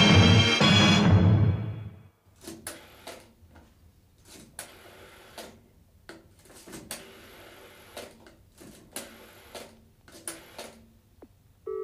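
A telephone is dialed: after a loud rustling burst at the start, several separate runs of rapid mechanical clicks follow, each group set apart by short pauses.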